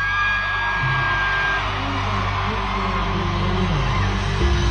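A concert crowd cheers in a sustained, dense roar as the band rises onto the stage after a countdown. Whoops and yells ride over the steady wash of noise throughout.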